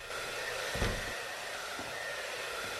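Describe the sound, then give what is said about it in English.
A hair dryer blows steadily as someone dries her hair in a bedroom, producing a constant, moderately loud airy whoosh with a slight bump partway through. “Anna is drying her hair in her bedroom.”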